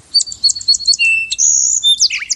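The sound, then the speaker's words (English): Sparrows chirping in a backyard: a quick, dense run of high, thin tweets and trills that overlap in bright bursts, with no voices. “That's the sound of the sparrows in my backyard.”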